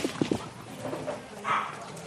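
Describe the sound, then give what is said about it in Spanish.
Dogs give short yelps and whimpers as they are let out. Two quick sharp yips come near the start and a higher, drawn-out whine follows later, over a steady background hiss. “Pues ya salen los perros.”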